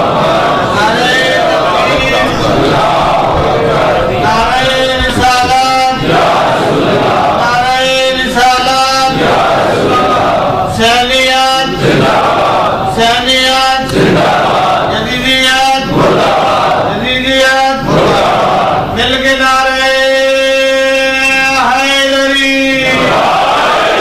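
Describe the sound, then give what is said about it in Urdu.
Loud crowd chanting religious slogans in praise of Muhammad at a gathering, with rhythmic bursts of many voices shouting together in a repeating pattern and a longer sustained chant at the end. “کہتے ہیں میں نعرہ لگانے سے خوش ہوتا ہوں لیکن لمبے لمبے نعرے نہ لگائیں”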